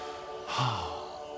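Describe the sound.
A single deep breath drawn in through the nose during a diaphragm breathing exercise, a short, airy rush that swells and eases off, faint and heard alone.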